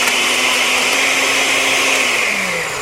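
A blender grinds broccoli with a pinch of salt into a liquid mush. Its loud, steady whirring roar runs without a break, and the motor's tone sags slightly near the end.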